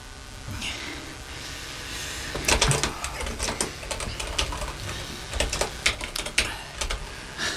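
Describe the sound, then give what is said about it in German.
Keys click as a password is typed on a computer keyboard, an irregular run of many sharp taps that grows busier and louder partway through, with no talk. “Ich gebe das Kennwort ein.”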